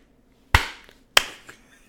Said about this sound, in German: Ich glaube, wir haben das Klatschen vergessen, oder? Oh, ja. Machen wir jetzt mal on the fly.